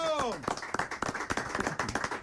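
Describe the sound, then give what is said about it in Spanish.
Audience hand clapping at a lively gathering with a welcome for a guest. Sharp, distinct claps strike in a quick, fairly even series, with a voice heard briefly at the start and talk mixed in. “Hay que darle con eso un aplauso.”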